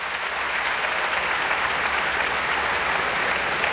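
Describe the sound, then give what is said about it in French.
Enthusiastic concert applause follows Beethoven's First Piano Concerto, played by a pianist with the Philharmonique de Radio France, a sustained, even wash of clapping at moderate volume with no break. “Et vous entendez ce public enthousiaste, évidemment, il en redemande et le pianiste va craquer.”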